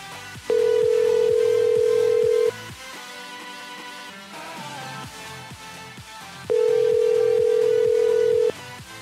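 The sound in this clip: Telephone ringback tone on a call that goes unanswered: two long, steady, mid-pitched tones, each about two seconds. A gap of roughly four seconds separates them, over a quieter continuous background.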